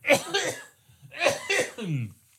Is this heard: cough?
yes

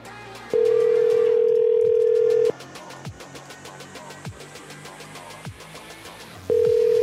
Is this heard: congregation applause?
no

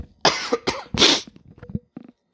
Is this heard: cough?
yes

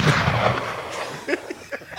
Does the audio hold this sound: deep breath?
no

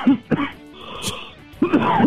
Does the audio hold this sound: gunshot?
no

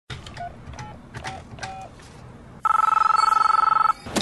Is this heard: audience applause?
no

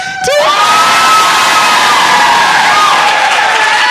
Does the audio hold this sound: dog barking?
no

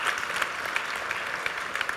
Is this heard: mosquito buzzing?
no

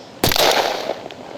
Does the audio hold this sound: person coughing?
no

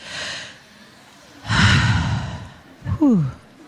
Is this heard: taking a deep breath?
yes

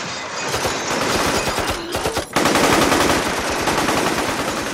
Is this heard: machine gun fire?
yes

